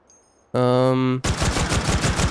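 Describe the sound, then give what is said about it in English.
Rapid gunfire from a gun with a small orange part, fired into the woods: a loud sustained buzzing tone, then a fast string of many sharp shots that runs to the end. “You're firing it just into the woods. But then it's got the little orange thing, and that orange thing is making me think, like, that's a video game gun.”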